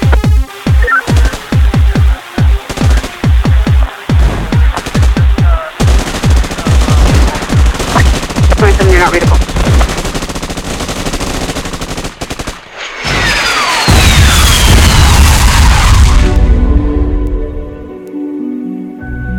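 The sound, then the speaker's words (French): AK-47 Kalashnikov automatic rifle firing: loud, rapid bursts of sharp shots at a steady rhythm, running together into longer strings of fire before giving way to a sustained rushing wash that fades out. “De toutes les armes du vaste arsenal soviétique, aucune n'était plus rentable que l'Avtomat Kalachnikova, modèle de 1947, mieux connu sous le nom de AK-47 ou Kalachnikov.”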